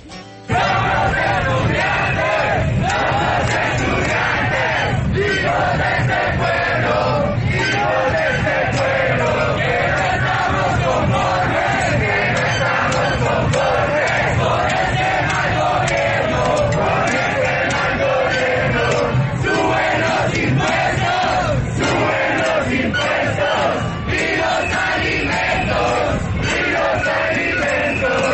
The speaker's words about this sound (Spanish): Seguimos acá en el Monumento de los Héroes al norte de Bogotá y, como usted lo dice, tras cerca ya de 8 horas las manifestaciones siguen, como escuchamos, en medio de arengas, cantos y estas muestras de arte.